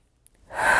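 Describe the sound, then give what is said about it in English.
A big, deep breath taken during a guided tapping and self-acceptance exercise. One airy inhale swells quickly from silence to full loudness, with no talk over it. “Big deep breath.”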